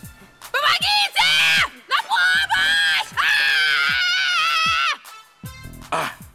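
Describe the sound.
A woman tied to a chair with tape screams in several long, loud, high-pitched wails separated by brief gaps, ending in shorter, broken cries.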